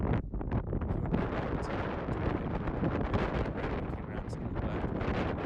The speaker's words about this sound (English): Wind sounds and the distant chatting of two guys sitting in front of a sunrise at 5:30 in the morning.